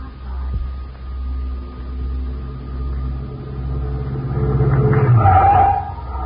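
A car drives up to a honeymoon cottage after a trip from San Francisco across the bridge, its low, steady engine hum swelling louder near the end.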